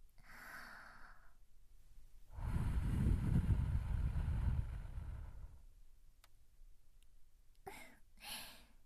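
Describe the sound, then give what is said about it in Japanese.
Breath is blown into a listener's ear during an ear-cleaning roleplay. A soft breathy puff comes first, then a long, strong, rushing gust lasts about three seconds and fades. A few faint ticks follow at the end. “ほら、こうやって耳に息を吹きかけると、”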